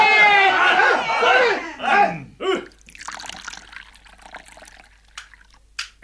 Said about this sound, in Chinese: 我要将福王嘅肉割出嚟，将福王嘅血倒入酒情，大家一起吃他的肉，饮他的血。